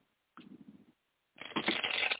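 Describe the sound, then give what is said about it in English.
A deck of playing cards is shuffled in two short bursts of crisp riffling. The second burst is louder, brighter and longer than the first, and the burst before it is softer. “I've got a deck of cards and I can't stop fucking with them.”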